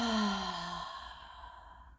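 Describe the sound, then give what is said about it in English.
A slow breath drawn through the throat fades into a long, soft, sigh-like exhale with a faint voiced tone that sinks and tapers away to near silence. “Breathe in through your throat. Breathe out through your throat.”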